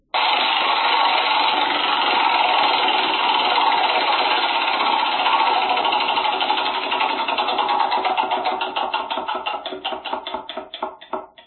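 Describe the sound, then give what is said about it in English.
A prize wheel is spun during a song-picking game, giving a rapid, continuous ticking that gradually slows into separate, spaced-out clicks as the wheel winds down. “are you ready to spin that wheel? I'm ready. Let's go.”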